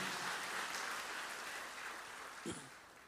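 Congregation clapping hands in praise of Jesus during a church service, a faint, dense, even wash of applause that holds steady throughout, with no voices over it.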